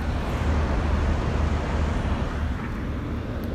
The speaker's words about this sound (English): which is lots of construction, lots of traffic. And for those of you who are living in a big major city, this will sound awfully familiar to you.